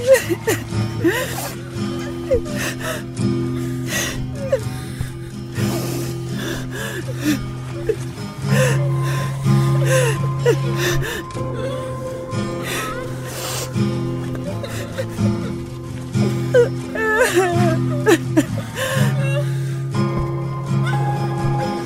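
A woman crying and sobbing while hugging her grandmother's body, with gasping breaths and whimpers over steady background music.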